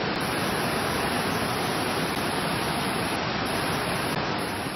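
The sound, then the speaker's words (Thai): Heavy rain pours and floodwater rushes into homes in Ban Nam Sap, Bu Pueai subdistrict, Nam Yuen district, making a steady, dense, unbroken roaring hiss. “Facebook ของผู้ใหญ่บ้านบอยโพสต์คลิปนี้ไว้เมื่อคืนโอ้โหฝนเนี่ยตกหนักและปรากฏมวลน้ำทะลักเข้าท่วม”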